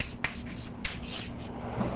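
An equation is being written with a soft, continuous scratching and rubbing. Two sharper taps stand out, one near the start and one a little later.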